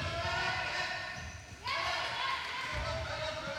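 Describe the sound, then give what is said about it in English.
Basketball bouncing at a Chicago Bulls game: a few dull low thuds under a steady wash of background noise. “The sound you just heard is basketball and no one talking.”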